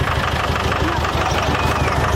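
A car arrives with its engine running, a steady, loud rumble of broad engine noise that holds an even level throughout without any clear change.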